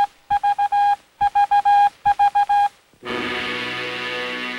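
Beeping signal from a radio transmitter: three quick groups of four sharp, loud beeps at an even pitch, then a sustained, full tone that holds to the end.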